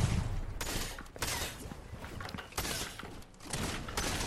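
Video-game gunfire from Fortnite Zone Wars comes as loud, dense volleys of shots running almost continuously, with brief lulls between bursts.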